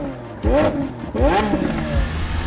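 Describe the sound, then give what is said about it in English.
A motorbike engine starts up and revs in two sharp bursts, each opening with a rising, whining pitch and then settling into a steady mid-pitched drone. “You wheel your bike out of the apartment. Yeah. It starts up.”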